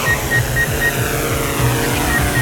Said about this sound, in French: Ce matin-là, l'unité drone teste un nouvel outil capable de cartographier une zone en temps réel. Décollage.